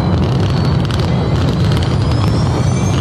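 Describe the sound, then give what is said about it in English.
Explosions rumble at a show with a drone display and flames: a loud, continuous deep roar with wind noise. The blasts blur together with no clearly separate booms. “Huge explosions. Lightning. It literally looks like lightning. And here we go. You can hear the explosions in the background.”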